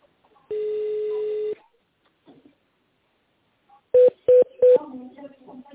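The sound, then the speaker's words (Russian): Three quick touch-tone keypad beeps dial an extension on a company's automated phone line. They follow a steady one-second tone and a pause, and a faint voice comes in afterward. “Если вы знаете внутренний номер абонента, наберите его в тоновом режиме, либо дождитесь ответа секретаря.”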